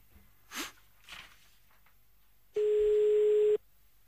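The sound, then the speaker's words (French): A telephone ring-back tone heard while calling a supermarket: one steady, mid-pitched tone lasting about a second. A couple of short breathy sounds come before it. “Ah oui, ça met du temps à décrocher, c'est normal en même temps à cette heure-ci.”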